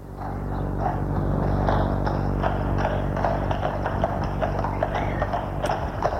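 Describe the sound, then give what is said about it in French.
A horse-drawn cab, a fiacre, pulls away, its horse's hooves clip-clopping in a steady stream of many hoof beats over a continuous low rumble. “Une fois dehors, un fiacre les attend. Ils y montent.”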